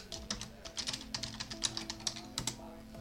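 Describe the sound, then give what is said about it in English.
Rapid typing on a computer keyboard while writing a chat message: many light keystroke clicks in an uneven, quick rhythm, heard on their own. “I'm going to just write in chat. Give me a moment.”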